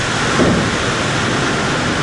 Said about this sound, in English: As the rain falls yet again